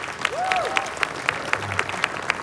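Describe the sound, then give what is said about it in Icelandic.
An audience applauds at an outdoor summer jazz event on a stage, with steady dense clapping and a few sharper, louder claps standing out at regular intervals. “Já, já, klöppum fyrir því.”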